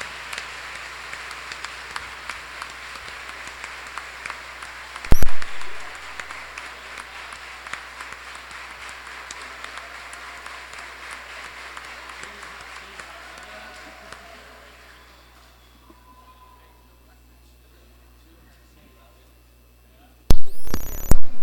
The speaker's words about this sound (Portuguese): Uma salva de palmas para todas as mães.